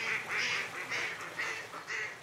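Ducks quacking at a pond: several raspy, nasal quacks in a quick, uneven run, fairly loud, with no talk.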